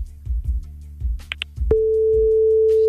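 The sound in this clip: Telephone ringing tone on an unanswered call: a single steady mid-pitched tone sets in partway through and holds to the end, after some low muffled sounds.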